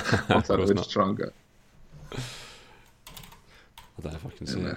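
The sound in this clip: Typing on a computer keyboard while logging into an account: short runs of light key taps in a quieter gap between stretches of someone talking.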